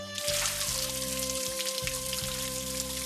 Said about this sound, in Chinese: 听到这儿，小布丁的脸刷的一下子就红了，他主动跑到卫生间开始洗澡